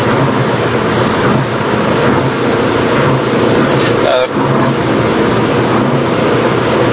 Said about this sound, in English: 3 hours to get here by car. I'm just on the final stretch on the A57 motorway.